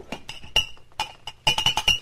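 Whiskey glasses clinking as drinks are served at a bar, many sharp, bright, ringing clinks at an irregular pace that bunch together in a rapid cluster near the end.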